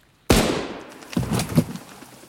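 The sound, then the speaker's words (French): A gunshot cracks in a wood during hunting season: one sharp, loud bang with a decaying tail, then a few softer, lower thumps. “Après 5 minutes, Raph se retourne et d'un hochement de tête fait signe à Bordeaux de tirer.”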